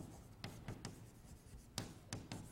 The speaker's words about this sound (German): dann schreibe ich, zeichne ich mir das auf